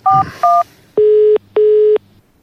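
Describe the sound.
A telephone number is dialed: two quick keypad tones, then two longer, lower steady beeps, clear and loud with no voices.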